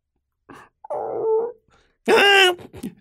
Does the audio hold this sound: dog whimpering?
yes